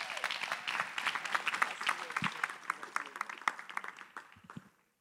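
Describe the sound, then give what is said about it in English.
Audience applause welcoming a speaker at a staff gathering, dense steady clapping that thins out and fades to silence at the end. “So why don't y'all put your hands together and let's just give her a warm staff welcome.”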